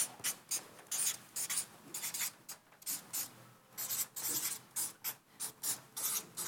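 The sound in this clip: Writing on a board produces many short, scratchy rubbing strokes in irregular bursts, fairly faint, with no voices.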